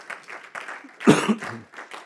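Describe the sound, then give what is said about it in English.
A church audience claps their hands in a quick, rhythmic patter, and a voice calls out briefly in the middle. “We ought to just clap our hands and thank God for that scripture tonight.”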